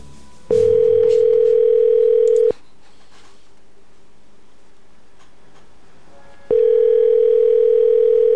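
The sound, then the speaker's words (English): Telephone ringback tone heard while a call connects: a steady, loud electronic tone sounds in two long bursts separated by a quiet gap of several seconds, with no talking over it. “It's ringing.”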